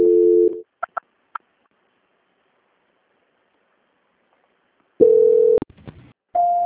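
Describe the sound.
Telephone line tones during a call transfer: a steady tone, then three short beeps, a long silence, and two more steady tones, the last one higher in pitch.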